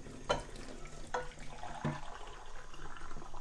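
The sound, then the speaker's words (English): Dishes are washed up in a sink, with a soft wash of water and three clear ringing clinks of a bowl or crockery spaced out across it. “beautiful dinging bowl, and that's why I like washing up.”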